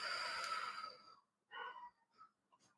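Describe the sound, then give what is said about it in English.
Slow, deliberate breathing during a calming exercise, in through the nose and out through the mouth: one long airy breath, then a few shorter, softer sniffs and puffs. Faint, with no talking. “So in through the nose. And exhale out through the mouth.”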